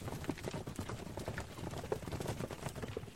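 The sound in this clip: Horses' hooves clip-clop as mounted warriors ride home, a quiet, continuous run of many hoofbeats in an uneven rhythm.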